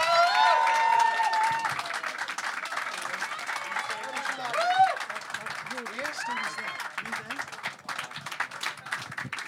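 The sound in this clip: An audience applauds and cheers as a guest is welcomed onto a stage. Dense, steady clapping runs throughout, with whistles and shouts rising over it.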